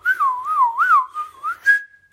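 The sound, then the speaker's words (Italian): A person whistles a short, lively tune of several warbling phrases that rise and fall, ending on a single high note held steady. The whistling is clear and heard alone. “L'appoggiano contro l'albero e vedono che in cima arriva Pimpf, fischiettando.”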